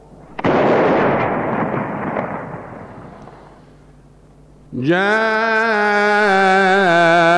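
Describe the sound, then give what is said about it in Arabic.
A Ramadan imsak cannon fires once, a loud, sharp blast whose deep rumble fades over a few seconds. A voice then begins a sustained, melodic chant. “مدفع الإمساك اضرب”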